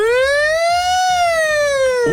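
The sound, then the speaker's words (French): A voice imitates a new police siren as one loud, continuous, buzzy wail that slowly rises in pitch and then dips at the end, lasting about two seconds. “Les toutes nouvelles sirènes de police, elles font.”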